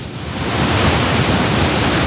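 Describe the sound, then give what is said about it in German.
Loud, continuous roar of a waterfall plunging down rock walls into a valley, heard from the uppermost platform. A dense, steady rushing hiss with no breaks or voices. “Vor uns sieht man eben die Wassermassen runter ins Tal schießen oder über die Felsenwände da runterfallen.”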